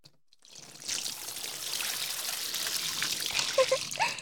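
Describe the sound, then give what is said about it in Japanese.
Hot water pours steadily over a body to rinse it, a continuous splashing stream that starts after a brief quiet moment and runs to the end. “冷えちゃうとお湯も熱く感じちゃいますよね。でももう一回流しますからね。”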